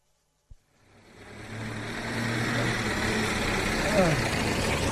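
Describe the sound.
Car engine from a car driving up to a house: a sharp click, then the engine noise builds into a steady low hum that holds throughout.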